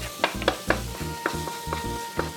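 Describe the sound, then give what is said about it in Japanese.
Ginger added to melted butter in a pan sizzles with a steady bright hiss, broken by several light clicks and scrapes of stirring. “生姜入れていきます。いい音。このバターと生姜の香り、だんだんこう香りが立ってくるので、”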